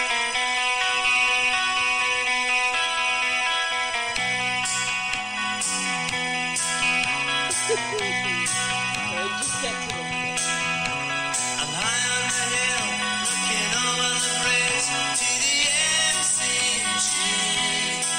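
A song plays loud and continuously, with a full band mix, sustained harmonic tones and a steady rhythm throughout, and no talking over it.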